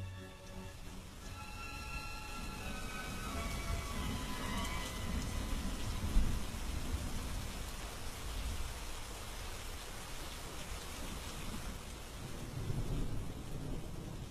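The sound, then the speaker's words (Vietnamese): Heavy rain pouring on a forest, a dense, steady hiss over deep rumbling that swells briefly near the middle, with no voices. “Xen lẫn trong tiếng mưa nặng nề đó là tiếng rít gào ai oán, làm cho cả khu rừng trở nên ma quái.”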